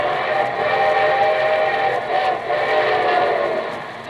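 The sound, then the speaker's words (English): Radio sound effect of a train with its whistle: loud, sustained whistle tones ring over a continuous rumble of the moving train, heard alone without voices. “And here comes our summer show train with your host, Gordon McRae.”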